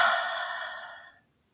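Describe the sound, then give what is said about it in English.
A long, breathy exhale during a guided heart-focused gratitude meditation, soft and steady, fading away over about a second before falling silent. “Taking a deep breath in and let it go.”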